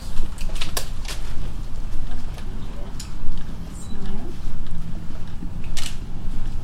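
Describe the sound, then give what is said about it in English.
Camera shutters click at a wedding photo session: a few sharp, brief clicks, some in quick succession, over a steady background murmur. “Oh, you hear the click of the camera. That's much better.”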